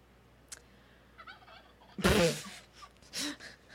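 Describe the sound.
A turkey gobbles. A few faint calls come first, then a loud, rattling gobble burst, followed by a shorter, softer one.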